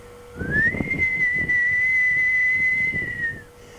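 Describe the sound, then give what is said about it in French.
A whistle blast at midnight beside a fresh grave: one long, steady, high-pitched tone that rises briefly at the start and then holds level for about three seconds before stopping, over faint low rumbling. “Mais alors retentit un coup de sifflet”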